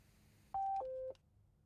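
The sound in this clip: Telephone keypad tones sound as a caller dials to call back: two steady beeps, the second lower in pitch than the first, moderately loud against near silence.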